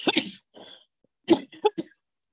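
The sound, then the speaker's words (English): A person coughs in two separate clusters, a few sharp, dry bursts at the start and a tighter run of quick coughs after a short pause. “I'm going to keep coughing if I don't.”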